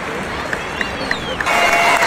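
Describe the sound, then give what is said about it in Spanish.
Crowd applauding at a stadium as a national football team walks out, a steady dense wash of clapping with a few whistles on top, swelling louder toward the end, no clear talk. “Aplausos para Burkina Faso en la salida al Monumental.”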